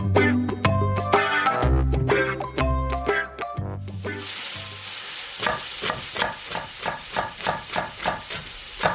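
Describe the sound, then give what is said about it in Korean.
Kimchi fried rice frying in a pan, a steady loud sizzle broken by many regular, rhythmic pulses of stirring, after a stretch of music. “조금만 기다려. 김치볶음밥 다 돼가니까.”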